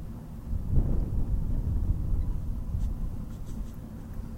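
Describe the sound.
Wind blowing outdoors on a breezy day buffets the microphone in a steady, dense low rumble that holds at a fairly even level throughout, with a few faint higher tones flickering through near the end.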